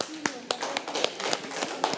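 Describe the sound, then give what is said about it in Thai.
Students clap for a group in a classroom, a scattering of sharp, uneven claps with children's voices talking over them. “ค่ะปรบมือให้กับกลุ่มที่1ค่ะ”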